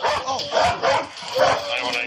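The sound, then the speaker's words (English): A police dog barks repeatedly, giving a few sharp, loud barks in bursts over a noisy, busy background. “We're going to send that dog in.”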